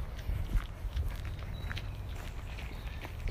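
Footsteps of runners passing by: soft, irregular steps over steady background noise, fairly faint and without a clear beat.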